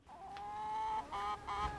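Hens clucking, kept in a home garden: one long, drawn-out tonal call followed by two shorter calls, clear and alone.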